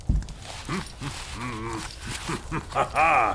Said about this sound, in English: he's a boar. He's got fur and bristles.